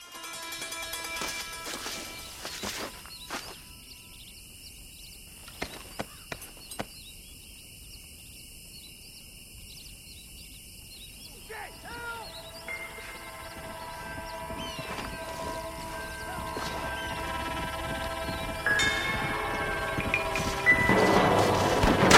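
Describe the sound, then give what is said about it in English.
Music and ambient sound from a Red Dead Redemption video game piece: sustained tonal layers over a rumbling ambient bed, with a few sharp hits partway through, swelling louder toward the end. “So I picked a clip here that we can listen to that sort of shows the music and the ambient sound of the game coming together.”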